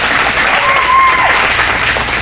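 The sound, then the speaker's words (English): Audience applause for school staff being recognized: steady, dense clapping that holds at an even loudness for the whole stretch without a break. “you can go ahead and clap for them.”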